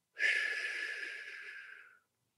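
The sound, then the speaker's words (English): One steady exhale through pursed lips, an airy breathy hiss lasting about two seconds that starts strongly and slowly fades before stopping. “you breathe in through the nose with the mouth closed, like that, and then you breathe out through pursed lips”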